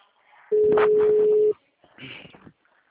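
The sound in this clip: A telephone call being placed: a single steady mid-pitched line tone sounds loudly for about a second with faint voice-like sounds over it. A short burst of muffled sound follows after a pause.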